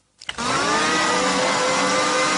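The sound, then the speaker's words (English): A blender motor in a government anti-drug advertisement starts abruptly after a moment of silence, then runs steadily with a loud, sustained high whine that does not change. “The ad shows a human brain in a blender.”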